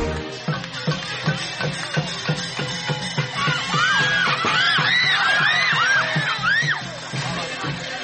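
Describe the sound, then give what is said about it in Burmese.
Crowd cheering and shouting at a Burmese boxing match in Kanchanaburi province, Thailand, loud whooping yells that rise and fall in pitch over a steady rhythmic beat, swelling in the second half. “အော်ဟစ်အားပေးနေကြတဲ့ပရိသတ်တွေရဲ့အတန်တွေနဲ့ဆူညံနေတဲ့မြမပြည်သားတွေရဲ့လက်ဝှေ့ပွဲကိုထိုင်းနိုင်ငံရဲ့တနေရာမှာစီစီကြောက်ကားတွေ့နေကြတာပါ”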